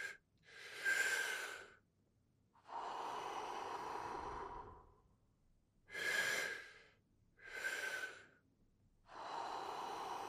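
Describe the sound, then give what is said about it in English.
Deep, airy breaths from a person doing a breathing exercise, drawn through the mouth or nose. Five long breaths stand alone in a slow, even rhythm, each a soft, full rush of air. “to inhale fully. You can go through your mouth, through your nose, as you feel.”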